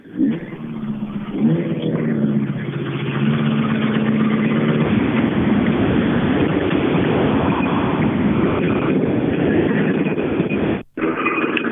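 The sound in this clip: A Saab car on a rally road gives a loud, continuous engine roar with revving tones early on, then a dense rumble that holds steady before cutting off briefly near the end.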